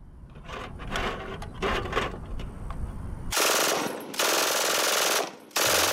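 MG42 machine gun fire as a sound effect: rapid rattling crackle gives way to long, loud bursts of continuous automatic fire separated by brief pauses.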